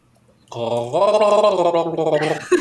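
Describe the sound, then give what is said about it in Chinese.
Water gargles in the throat as someone tries to sing through it. A voiced, bubbling tone steps up in pitch and holds, wobbling for about two seconds, then ends in a short sputter. “你听起来很像晚上在晚上刷牙之后要漱喉咙一样”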